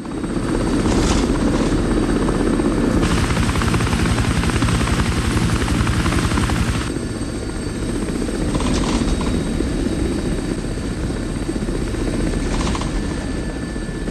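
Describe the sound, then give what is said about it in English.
Helicopter flying over a desolate canyon, its rotor and engine making a loud, continuous droning thrum that holds steady throughout, with a brighter, louder stretch in the early middle part. “The helicopter continues to scour miles and miles of desolate canyon.”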